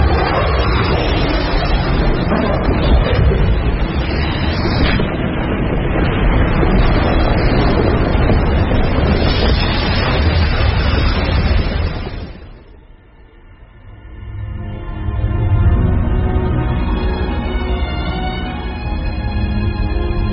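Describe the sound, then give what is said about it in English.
An avalanche roars down a mountain slope: a loud, dense rushing rumble that fills the sound for many seconds, sags briefly partway through, then swells back up into a steadier drone. “Moving at 250 miles an hour, an avalanche destroys everything in its path.”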